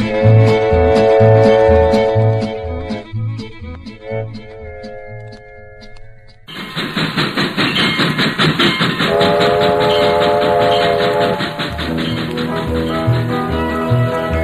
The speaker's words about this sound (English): Hear the whistle blowing while I'm singing a song. A streamlined train, watch that diesel roll.